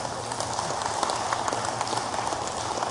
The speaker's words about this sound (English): Give Matt a big hand.